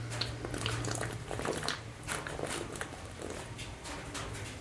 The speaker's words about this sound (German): Ich muss nochmal ein Schlückchen Bier trinken. Ui, die Flasche. Ich glaube, das muss ich austrinken.